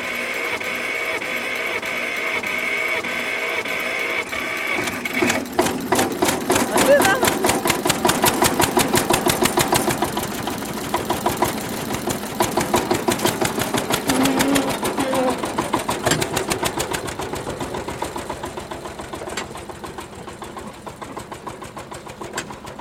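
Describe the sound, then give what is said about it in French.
An old farm tractor engine, nearly 50 years old, runs with a rapid, rhythmic mechanical chugging that grows steadier and louder after a quieter start, then gradually eases in level toward the end. “Mais ça, c'est un vieux tracteur. Il a bientôt 50 ans alors.”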